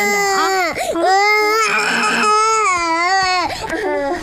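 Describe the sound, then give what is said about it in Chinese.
An infant cries loudly and without pause, a high wailing cry with wavering pitch, broken only by short catches of breath between the drawn-out sobs. “哎呀，别哭了。好了。 谁抱都哭，这孩子。”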